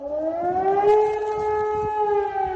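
A German civil defense warning siren sounds during an alarm test. Its loud, wailing tone climbs in pitch over the first second, then holds nearly steady and eases slightly, heard alone without voices.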